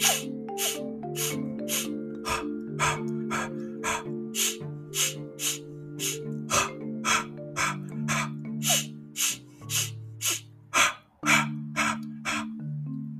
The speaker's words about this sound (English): Now, exhaling, you might find it a little bit tough because if you've not been practicing, there is a challenge. Inhaling might be easy, but exhaling might be.